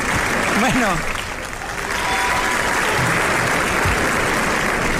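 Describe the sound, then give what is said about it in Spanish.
An audience bursts into applause, a dense, steady clatter of many hands clapping that fills the whole stretch without a break. “Ahora apláudanme.”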